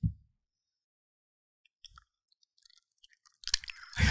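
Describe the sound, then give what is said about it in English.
Crunchy chips being chewed: faint, brief crunching bursts scattered across a short stretch of quiet, with a few soft mouth sounds between them. “Let me eat some chips.”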